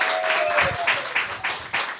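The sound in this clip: An audience applauding a volunteer called up at a live show: a dense, steady wash of clapping, fairly loud, with a voice calling out over it.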